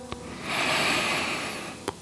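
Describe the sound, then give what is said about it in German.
A slow deep breath taken during a guided meditation: a soft, airy rush of breath noise swells and fades over about a second, with faint clicks just before and after and no talking. “Nimm noch einmal einen tiefen Atemzug.”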